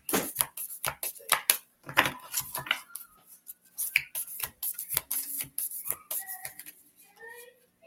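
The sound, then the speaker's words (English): Shuffling a deck of cards gives a run of crisp, papery clicks and riffling bursts, irregular and fairly quiet, with a few brief pauses between rounds. “Gotta loosen these cards up”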